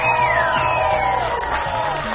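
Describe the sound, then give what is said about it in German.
An audience cheers at a live event in a private apartment, with whoops and falling shouts rising over a steady crowd murmur. “Auch ein Applaus für die Herrschaften auf dem Weg zu uns.”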